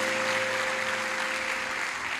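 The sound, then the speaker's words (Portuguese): An audience applauds at a church service: a steady, even wash of clapping that holds at moderate level throughout, with no pauses and a faint low hum beneath it. “Podemos aplaudir a Jesus por isso?”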